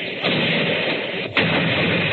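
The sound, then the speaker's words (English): Artillery guns in Regent's Park, London, open fire, making a continuous heavy, dense roar. One sharper blast cuts through about two-thirds of the way in. “There's the Regent's Park guns opening up again. My teeth rattle and shakes the hats off the dummies' heads.”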